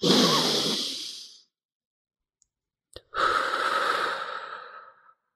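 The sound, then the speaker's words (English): A long, deep human breath: one slow, airy inhale, a quiet pause with a faint click, then a longer, steady exhale that fades out. “let's take a deep breath together now. And I have them do it with me, and I do a long one.”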